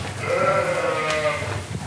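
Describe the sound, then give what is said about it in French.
Sheep bleating as ewes come into a milking shed to be tethered and eat grain: one drawn-out, wavering bleat rises out of a steady, noisy background of livestock and shed sound. “Il y a 24 brebis qui rentrent, qui s'attachent, qui mangent le grain.”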